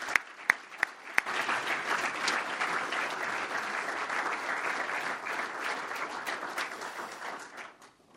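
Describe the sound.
An audience applauds to welcome a speaker to a talk: a few sharp isolated claps open, then dense steady clapping from many hands holds at an even level before tapering off at the end.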